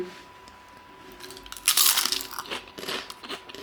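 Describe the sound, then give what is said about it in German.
Biting into a green, seaweed-like snack gives a loud brittle crunch, followed by a run of smaller crackling crunches as it is chewed. “Das riecht. Naja, okay. Beißen wir rein.”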